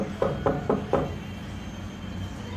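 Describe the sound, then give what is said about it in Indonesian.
Four heavy knocks pound on a door in quick, evenly spaced succession. A low, steady background hum continues after them. “Biasanya kalau Pak RT ketukannya pelan, Bu. Ini kok seperti mau roboh pintunya.”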